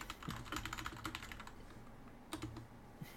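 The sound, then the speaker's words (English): Typing a reply on a computer keyboard: a quick, irregular run of soft key clicks, a brief pause, then a few more keystrokes, all fairly quiet. “I'm confused. I type back.”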